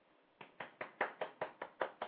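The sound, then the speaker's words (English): A single person claps hands in a quick, even round of nine crisp claps spaced about a fifth of a second apart. The claps are faint and heard alone. “That's me giving you a round of applause.”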